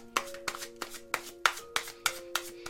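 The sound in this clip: Tarot cards are drawn one by one from a deck: eight crisp snapping flicks in an even rhythm over soft sustained background music.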